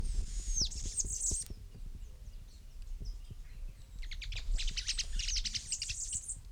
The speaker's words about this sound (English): Two birds calling.